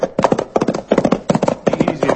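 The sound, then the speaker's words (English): Hoofbeats of a saddled horse on trails, a brisk clip-clop that repeats many times in a steady, driving rhythm. The hooves are loud and stand alone, with no voices. “I did throw a saddle on my horse and start burning up the trails which lead from Dos Rias to Mitt Cummings' huge ranch.”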